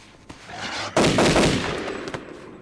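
Rifle shots crack out, a few sharp reports with one loud blast that leaves a noisy, lingering tail.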